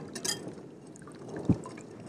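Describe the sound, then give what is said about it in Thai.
Faint pouring of one liquid mixture into another as the two parts are combined to form a clear gel, a soft, low trickling wash with a single dull knock partway through. “ขั้นตอนที่3คือเอาส่วนที่1กับส่วนที่2เทเข้าร่วมกันค่อยๆเทค่อยๆเทเข้าร่วมกัน”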